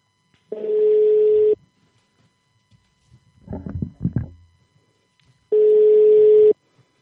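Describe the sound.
Ringback tone of an outgoing telephone call: two long, steady beeps about five seconds apart, with brief, softer noises between them.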